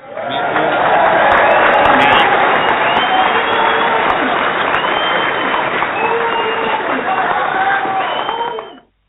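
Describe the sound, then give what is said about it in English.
Audience applause sound effect: a dense, steady roar of clapping mixed with cheers and whistles holds at a loud level for about nine seconds, then cuts off abruptly. “Rebecca, I want to give you a round of applause.”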